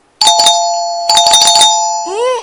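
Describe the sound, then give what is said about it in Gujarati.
A doorbell rings at two in the middle of the night: a loud electronic chime plays two quick clusters of bright tones, then ends in a short warbling tail. “રાતે બે વાગે કોણ આવ્યું છે પપ્પા doorbell વગાડીને”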